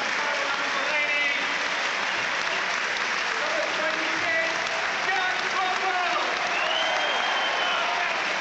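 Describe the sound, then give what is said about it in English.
A football crowd at Goodison Park gives a standing ovation during an Everton versus Sunderland Premier League match as a player is substituted off. The steady, sustained applause runs throughout while a commentator talks over it. “Marouan Fellaini, hugely appreciated by this audience inside Goodison Park this afternoon. He's replaced by Jack Rodwell to a standing ovation.”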